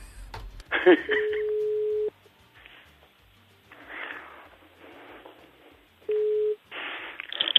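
A telephone call rings out: two steady, mid-pitched ringback tones, the first about a second long and the second shorter, with rustling and handling noises between them.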